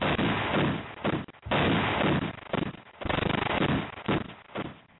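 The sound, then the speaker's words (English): Gunshot sound effect played as a one-gun salute; heavy, booming blasts with rumbling, noisy decay, several bursts following one another in quick succession. “One gun salute.”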